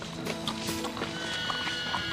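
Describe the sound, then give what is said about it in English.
A horse galloping away from a ranch: a scatter of irregular hoof beats and thuds over a steady tonal background, fairly quiet throughout. “Now free, Tommy Boy gallops away.”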